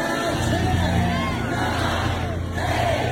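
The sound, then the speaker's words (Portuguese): A loud crowd counts down aloud in unison for a 61-year-old woman breaking the women's world plank record, a dense, continuous roar of voices with shouting and babble throughout. “Isto é uma contagem crescente. Boa. Isto é uma contagem crescente para o quê, Alexandre Guimarães? Dá-me o contexto. Isto aconteceu recentemente? Aconteceu recentemente. Foi quebrado um recorde mundial feminino. E estes 10 segundos em contagem decrescente eram os 10 segundos para Donna Jean Wilde, de 61 anos, bater o recorde mundial feminino de prancha”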